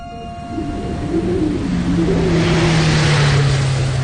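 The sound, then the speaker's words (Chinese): Engine roar of a paratrooper assault vehicle pulling out of a brigade headquarters office area and speeding uphill. A loud, continuous drone holds throughout and swells slightly as it goes, with no talk over it. “伞兵突击车开出旅部办公区，往山上疾驰。”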